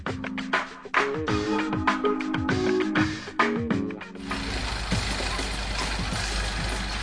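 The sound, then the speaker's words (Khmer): A truck delivering stones along a road to a house runs its engine with shifting whines and mechanical clanks, then a dense, steady rushing roar takes over as the load is dumped. “ថ្ងៃនេះមានឡានដឹកថ្មមកចាក់ពេញផ្លូវមកផ្ទះ”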